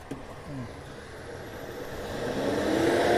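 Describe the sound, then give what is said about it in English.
A loud truck engine rumbles amid busy road traffic, a broad, steady roar that swells louder over the final second. “Holy cow, this truck is really loud. Busier today. You can probably hear it in the background.”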